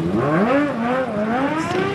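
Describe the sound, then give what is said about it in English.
Motorbike engines revving along Tripoli's seafront on a warm evening as young riders perform tricks for a crowd, a loud, buzzing whine whose pitch wavers up and down. “young men parade their motorbikes and machismo along Tripoli's seafront, performing tricks in front of the crowd”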